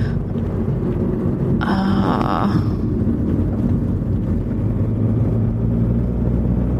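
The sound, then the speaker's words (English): A car driving on the road gives a steady, low rumble of engine and road noise that continues throughout, with a brief hiss-like swell partway through and no talk. “Good, no one's behind me as I drive erratically.”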